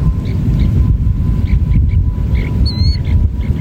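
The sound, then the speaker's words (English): A western snowy plover chick chirps from inside its egg just before hatching: many faint, high, short peeps repeating over steady low rumbling noise, with one clearer, higher call near the end. “That's the sound of a snowy plover chick chirping from inside an egg. The chicks tap at the eggs just before hatching.”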